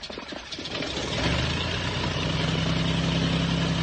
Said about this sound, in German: Sie beabsichtigen, den Aeroplan zu starten?